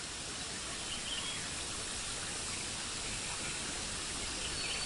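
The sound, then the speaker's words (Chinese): Flowing stream water in a natural setting, a steady, even rushing hiss that continues without pause or distinct events, with no voices. “置身于大自然里面，流水的声音包围着你，”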